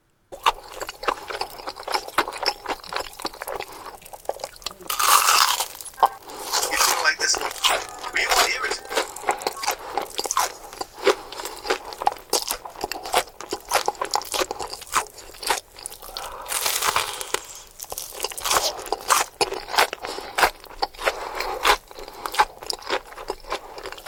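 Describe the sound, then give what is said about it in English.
A mukbang ASMR eating recording of close, crisp crunching bites and chewing, with many loud crunches that come in bursts and then ease into softer mastication. “I won't play too much of it, right? But this is an idea of what mukbang ASMR sounds like.”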